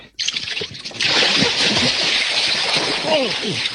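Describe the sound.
A person jumps down into cold water with a splash, followed by a steady, loud rush of churning water that lasts to the end. Voices speak briefly over it.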